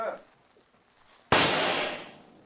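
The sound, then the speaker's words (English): A single pistol shot: after near silence comes one sudden, loud crack that trails off in a long, gradually fading tail. “I'll wager you a month's pay that I can smash that insect with one pistol shot.”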